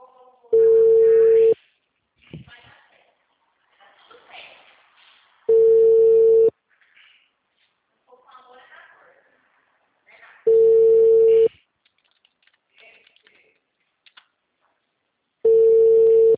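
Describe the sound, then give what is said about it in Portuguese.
Telephone ringback tone from an outgoing call before it goes to voicemail: four long, steady, even-pitched tones spaced about five seconds apart, with faint talk and rustling in the gaps between them. “Tô ligando, amor. Pode atender?”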